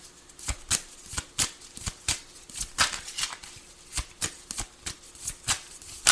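A deck of cards is shuffled with many quick, sharp riffling snaps in an uneven rhythm, fairly loud and with no talk.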